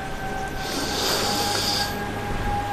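A deep inhale through the nose as someone on a woodland walk smells the forest air: a soft, breathy rush that swells and fades over about a second against a steady background hum.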